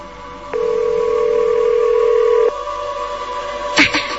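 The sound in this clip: A telephone ringback tone sounds while a call is being placed: one steady, mid-pitched tone holds for about two seconds. A quieter stretch of faint hiss follows, ending in a short burst of noise.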